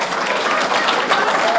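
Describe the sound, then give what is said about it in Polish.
Short burst of applause, dense and loud, with continuous clapping holding an even level throughout. “Brawa.”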